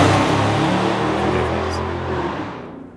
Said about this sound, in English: Somebody's up in a uh, drag race outside. My goodness.